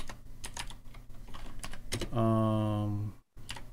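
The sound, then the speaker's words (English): Fingers type on a computer keyboard in a run of quick, light clicks at an uneven pace, followed by a sustained droning tone and a brief moment of silence. “But you got to type in ley lines, L-E-Y-L-I-N-E.”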